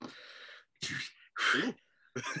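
A person sneezes, a few short, forceful bursts of breathy noise separated by brief pauses, loud and with no talk over them.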